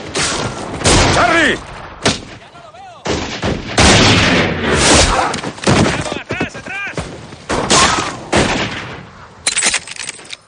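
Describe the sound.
Gunfire in a western-film shootout as an outlaw shoots down the gunmen, many sharp shots in ragged bursts over about ten seconds, with shouting voices between them.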